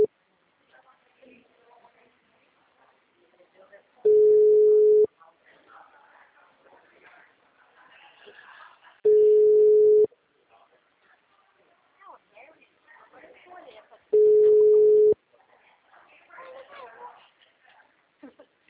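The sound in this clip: Telephone ringing tones from an outgoing call to a bank customer: three steady mid-pitched beeps, each about a second long and evenly spaced about five seconds apart, with faint voices murmuring in between.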